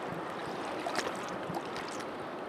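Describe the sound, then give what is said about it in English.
Flowing water of the Tazlina River in Alaska, a soft, steady rushing wash that stays even throughout with no voices. “Okay, so this is the sound of the Tazlina River.”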